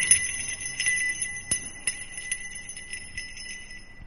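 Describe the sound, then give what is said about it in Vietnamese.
Bells ringing clamorously from inside a room, with bright, high, sustained tones that keep sounding throughout and a few sharper strikes. “đột ngột từ trong phòng của Thắng phát ra những tiếng chuông kêu rồn rập”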